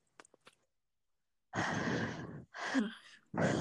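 A person imitating the heavy, labored breathing of a bloated man on a phone call: a few faint clicks, then three loud, rough breaths in close succession.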